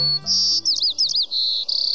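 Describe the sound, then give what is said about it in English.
Song of a white-crowned sparrow on a spring or summer day: high, clear whistled phrases, then warbled notes, ending in a rapid buzzy trill, repeated without pause over a faint low hum. “This is the song of a white-crowned sparrow. Some describe it as, see me, pretty, pretty me.”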